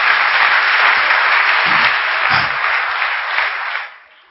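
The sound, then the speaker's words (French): A church audience applauding: dense, steady clapping from many hands that holds for several seconds, then fades out at the end. “Applaudissez pour le Seigneur.”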